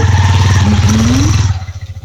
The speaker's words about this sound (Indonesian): Banyak motor ni, itu ya? Nah, iyalah orang lalu lalang.